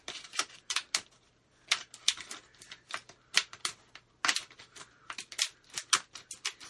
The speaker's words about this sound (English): So I'm just cutting the package for this. This is my, okay, cut around the corner here.